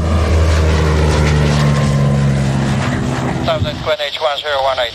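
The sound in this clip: A drone flying overhead gives a steady, buzzing motor hum with sustained droning tones for about three seconds. A voice begins talking as the hum fades toward the end.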